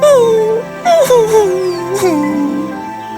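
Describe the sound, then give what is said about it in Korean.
A voice imitates a crying wolf cub in a children's fairy tale, producing a loud, whimpering, wailing cry whose pitch wavers and slowly drifts downward across a few sobbing catches. “에르고가 울자 브리짓은 에르고를 꽉 껴안았어요. 귀여운 강아지야. 나 때문에 우는 거니?”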